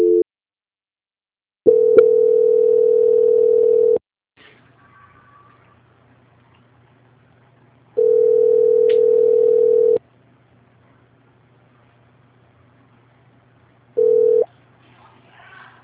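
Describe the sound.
Steady telephone tones play while a call is being transferred: three loud, flat, mid-pitched tones each last about two seconds, with a quiet low hum in the gaps. The last tone is cut short.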